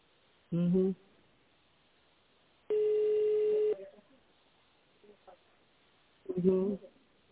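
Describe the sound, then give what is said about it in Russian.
A single steady telephone keypad tone, about one second long, sounds in the tone dialing of an extension number, with brief fragments of voice before and after it. “Пожалуйста, наберите внутренний номер абонента в тональном режиме или дождитесь ответа секретаря.”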